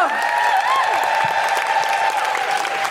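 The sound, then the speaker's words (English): Applause from an audience welcoming a stand-up comedian, dense, even clapping that stays loud and steady for about three seconds. “Then put your hands together and make incredible white noises for Sakisa!”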